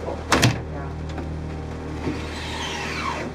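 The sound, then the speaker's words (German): A locked door being opened gives a short, loud clattering burst near the start, then a few faint rattles and knocks over a low steady hum. “sahen wir uns imstande, die verschlossene Tür zu öffnen”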